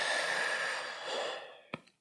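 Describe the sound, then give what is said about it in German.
A long, breathy exhale through a slightly open mouth, a soft steady hiss that gradually fades away, followed by a brief faint click at the end. “dann durch den leicht geöffneten Mund wieder ausatmen.”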